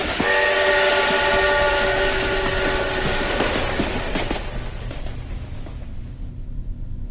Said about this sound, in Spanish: ¡Sí! ¡Nos subamos al tren!